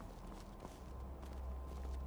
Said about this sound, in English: We are following a goat right now. somebody walking down the road.